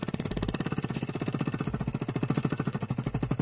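Rapid, evenly spaced clicking from a spinning prize wheel, many sharp ticks in a steady run that lasts the whole clip, with no voices over it.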